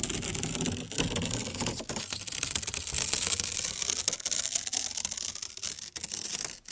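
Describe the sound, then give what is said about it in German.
Slow tearing of paper as an anti-stress art installation, a steady crackling, fibrous rasp that runs unbroken for several seconds with small crisp ticks scattered through it and no voices. “Langsames Zerreißen von Papier, was man gerne Trigger-Sound nennt, kursiert millionenfach im Netz, aber hier perfektioniert von der Künstlerin Anna Witt als eine Art Anti-Stress-Installation.”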